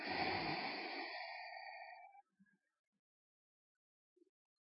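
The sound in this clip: A single deep, drawn-out inhale taken during a guided energy meditation, loud and breathy for about two seconds before fading, followed by a few faint small sounds.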